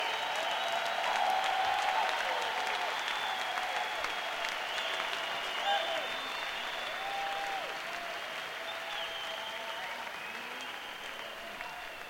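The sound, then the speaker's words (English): Sustained audience applause and crowd noise for an event organizer who stays backstage. The dense clapping holds steady and loud, then eases slightly toward the end. “But let's give him a big hand behind the stage, though he be Danny Rifkin. Yay, Danny.”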